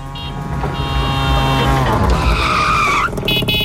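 A tuk-tuk drives past, its loud engine holding a steady drone with a shifting tonal whine that climbs and sharpens near the end, followed by a few brief higher bursts.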